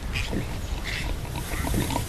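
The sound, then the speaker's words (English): A newborn piglet gives a few short, squeaky grunts and squeals over a rough, noisy background. “Oh, look, there's an actual piglet. It's the first baby ever.”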